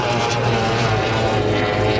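Steady, loud roar of a racing powerboat engine from a Formula 1 race on the water, driven by racer number 9, sustained without a break for about two seconds.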